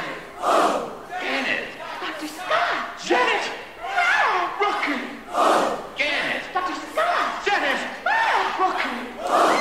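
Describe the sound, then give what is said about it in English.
Cinema audience shouting together at an interactive film screening, with loud overlapping voice bursts that rise and fall roughly every second across the whole clip. “That round of applause at the end of the bit explains a lot about the thrill of Rocky Horror's interactivity.”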